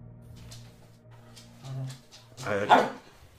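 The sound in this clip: A dog barks and whimpers in a few short yelps amid people talking, the loudest burst coming near the end.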